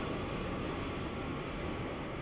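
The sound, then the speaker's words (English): Airplane noise: a steady, low-level drone with a faint constant tone running through it, unbroken for the whole short stretch, with no voices. “Listen, is this a plane? Yes, it is.”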